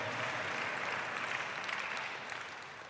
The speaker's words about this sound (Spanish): Dale el aplauso.